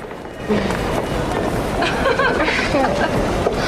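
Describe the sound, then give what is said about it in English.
A subway train arriving at a station produces a continuous roaring rumble with hissing and faint squealing, steady and fairly loud throughout. “Annie sees her friend Lynette getting off the subway.”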